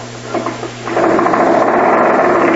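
The engine of a homemade flying machine, its carburetor just cleaned, being cranked to start: a few sputtering pulses, then it catches into a loud, steady buzzing drone.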